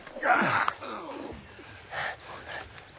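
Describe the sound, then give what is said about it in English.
Deep breathing in and out as someone is told to relax and breathe on cue. A few airy, breathy pulls and releases sound alone, with the first breath the longest and loudest. “Just relax. All right. Breathe in. Out. In. Out.”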